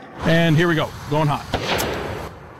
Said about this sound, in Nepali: This is the sound of the M8. You're going to be the first journalist to ever fire the M8.